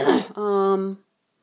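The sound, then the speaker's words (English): A single harsh cough bursts out, then runs straight into a held, voiced hum for about half a second before silence. “this cough needs to go die now, like right now.”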